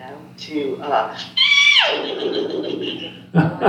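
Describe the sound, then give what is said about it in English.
A person's voice imitates a horse whinny, a high, quavering cry that slides downward in pitch, set among stretches of talk. “I like to give a little horse call here and there”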